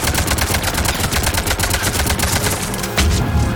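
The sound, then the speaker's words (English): Rapid video game gunfire sprays bullets at a single Banshee enemy, a loud, continuous stream of many quick shots with a heavier blast near the end. “I'm shooting all of these bullets at a single Banshee.”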